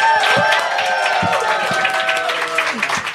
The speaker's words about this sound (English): Let's make some noise for Langston Kerman.